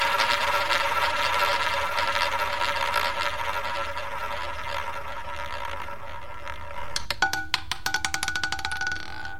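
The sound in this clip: A prize wheel spinning on a random selection machine: a sustained tonal whir, then a quick run of sharp ticking clicks toward the end, with no talk.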